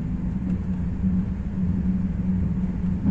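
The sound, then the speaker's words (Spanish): A train runs on rails through wetlands near salt pans between Puerto de Santa María and San Fernando, a steady low rumble with faint rattling that holds at an even loudness throughout, with no voices. “Con el sol en plena hora dorada, el tren comienza a atravesar las zonas húmedas”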